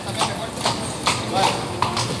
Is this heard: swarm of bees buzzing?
no